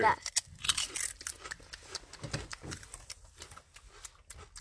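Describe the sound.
Crisp crunching of Lay's potato chips during a taste test, many sharp crackles bunched at the start and thinning out, with voices talking in between.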